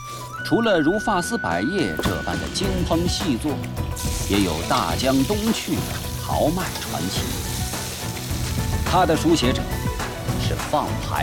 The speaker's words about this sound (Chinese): 将原料进行预先成熟处理，再入油锅翻炒，这便是熟炒。